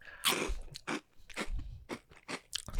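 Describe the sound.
Crisp crunching as someone bites and chews an ube-filled pillow snack: a series of sharp, dry crackling bites in an uneven rhythm, heard alone with no talk.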